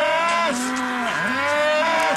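Cattle mooing on a farm where calves are being vaccinated: one long, loud, continuous moo, rich and low, whose pitch sags midway and then climbs back up.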